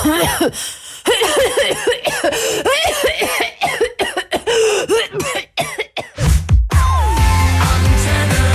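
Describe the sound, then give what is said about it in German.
A person coughs repeatedly in harsh, rough bursts mixed with voices, then music takes over near the end. “Schon gut, bleib bei deinem Husten.”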